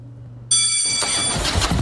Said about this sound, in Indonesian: Wah, ada yang punya motor baru nih.